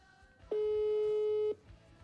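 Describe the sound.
A telephone call tone sounds while a number is being called. A single steady mid-pitched beep lasts about a second and stands alone over faint background noise.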